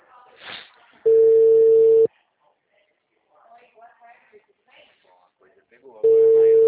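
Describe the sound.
A telephone line tone sounds while a call is being placed: two steady, loud, one-second hums, separated by a long pause filled with faint, murmured voices.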